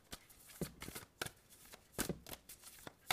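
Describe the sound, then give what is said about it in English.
Playing cards being shuffled, with cards popping out of the deck in several sharp, crackling riffle bursts separated by brief pauses and soft rustling. “Oh, no, it's like 20 cards popping out. Hold on.”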